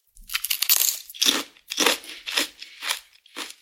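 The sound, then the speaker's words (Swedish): Crunchy bites of large ridged, chanterelle-flavoured potato chips being chewed, with a run of loud, crackly crunch bursts repeating in an uneven rhythm and no talking over them. “Stora räfflade. Ser typ ut som grillchips. Så att det är stort chips. Ja, men jag älskar stora chips.”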